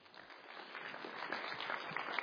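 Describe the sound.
Faint audience applause welcomes a guest speaker at a community church in Indiana: a soft, continuous patter of many hands clapping that swells slightly as it goes on.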